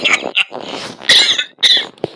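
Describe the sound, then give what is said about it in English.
Coughing and sputtering after a swallow of Mike's Hard Lemonade went down the wrong way. Several harsh, irregular bursts come in quick succession, choking and raspy, with no talk between them. “Ooh, that Mike's Hard Lemonade's finding its way into different parts of my throat. It shouldn't be in.”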